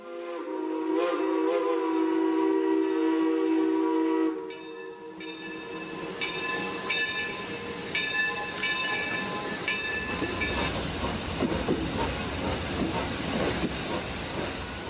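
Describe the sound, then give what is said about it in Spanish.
A steam locomotive in a smoky, glass-roofed station, staged as a radio drama effect: a long, loud whistle first, then a few shorter tonal toots, giving way to building hiss and rumbling chuffs. “La locomotora tenía un aspecto terrible bajo la cubierta acristalada llena de humo. Parecía un toro enfurecido que pateara por el ansia de arrancar.”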